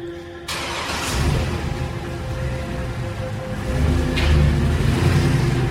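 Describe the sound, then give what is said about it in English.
A Cadillac's engine starts as the ignition is turned: a sudden burst as it catches, then a steady running hum that grows louder toward the end, with no voices. “Reese takes a deep breath, taps the steering wheel, then turns the ignition.”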